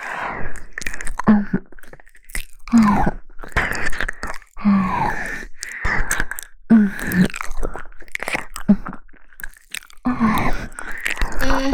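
Moist chewing and crunching as raw snake meat is eaten, in repeated irregular bursts of biting and mastication with short pauses between mouthfuls.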